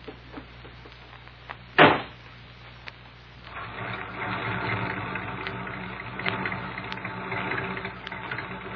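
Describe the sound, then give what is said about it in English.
A sharp thump is followed after a pause by a car motor starting and warming up, settling into a steady, low idling rumble that continues to the end. “Well, I have to warm up the motor first.”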